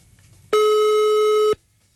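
A single steady telephone tone, held for about one second, sounds alone and with no talk as an unanswered phone call goes to voicemail.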